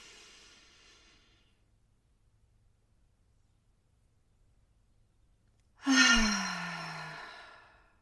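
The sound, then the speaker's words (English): Slow deep breathing in a calming exercise: a breath tails off into several seconds of near silence, then a loud, sudden sigh-like breath with a low voiced tone that gradually fades away. “I breathe in for 4 seconds. I hold it for 6 seconds and I breathe out for 8. So I'm going to show you what that looks like and what that feels like”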